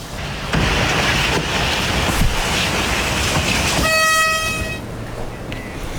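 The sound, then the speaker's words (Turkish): A train smashing through a tractor-trailer and dragging the wreckage: a loud, continuous roaring and grinding with a few sharp hits, and a train horn blaring for about a second near the end. “İkiye bölüp paramparça ediyor tren. Duramıyor tabii. Enkaz parçaları da sürükleniyor.”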